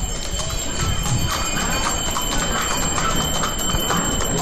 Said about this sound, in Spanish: no sé si lo escucháis, a los cascabeles de los mulos, son dos mulos los que llevan la carreta del Sin Pecado. Y me voy a acercar, los voy a esperar para que se escuche ese sonido.